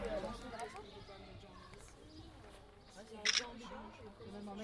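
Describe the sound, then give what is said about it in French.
A GoPro camera shooting burst photos in an architecture workshop gives a quick, faint cluster of shutter clicks, heard once amid low murmuring voices and background noise. “c'est une GoPro qui est en train de prendre en rafale les photos de l'atelier architecture.”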